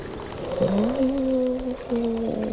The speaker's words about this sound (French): C'est un bout de la banquise qui vient de se détacher.